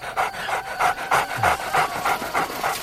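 Rapid, rhythmic panting from a dog, many quick breathy huffs in an even pulse, moderately loud and with no other sound over it.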